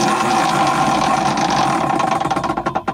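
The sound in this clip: A game wheel spun to pick a midlife crisis clicks rapidly as it turns, the dense ticking spreading out and slowing over the last second as the wheel winds down.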